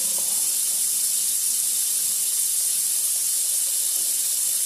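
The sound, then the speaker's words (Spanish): Water running from a bathroom sink tap: a steady, even, bright hiss that holds at the same level throughout, with no voices over it. “Como el agua del baño, sonido del agua del baño ahí. Del lavabo, en este caso,”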